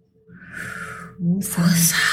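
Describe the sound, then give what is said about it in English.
A heavy breath out is pushed forcefully through the mouth and partly voiced. A breathy rush swells, then turns into a louder, hissing second exhale. “Like a heavy breath. And you find that when you do that, you're letting out some air”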